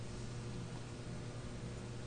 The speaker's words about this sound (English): Aware of the hum of the heating system in the background.